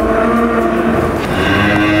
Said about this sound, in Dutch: Midden in de koeienstal, waar kinderen komen knuffelen, wij de dieren verzorgen. Allee ja, al 10 jaar ons wereldje midden tussen de koeien. We staan hier inderdaad midden tussen de koeien.